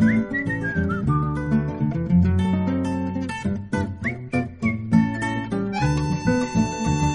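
A whistled melody carries over instrumental music with a steady bass line, the bright tones stepping through a lively tune with short pauses between phrases.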